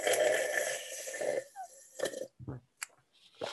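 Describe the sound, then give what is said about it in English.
Close, quiet tea sipping and slurping made for ASMR: a longer breathy draw followed by a few short, wet mouth sounds and small clicks with silent gaps between them. “So just for the people who enjoy tea, let me give you some ASMR.”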